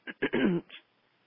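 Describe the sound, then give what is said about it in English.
A person clears their throat in a few short, rough bursts, ending with a longer rasping push and a faint final catch, followed by quiet. “Excuse me, I have a little frog in my throat.”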